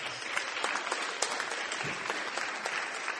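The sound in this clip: A church audience applauds with steady, dense clapping that stays at an even, moderate loudness from start to finish.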